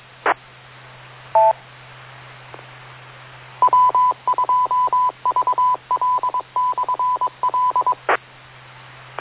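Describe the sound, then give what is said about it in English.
Morse code CW identification from the WT2VL repeater in New York: a steady mid-pitched tone keyed in rapid short and long beeps, preceded by a couple of brief isolated tones and clicks over a low hum. “I guess you hear that CW. That's WT2VL repeater.”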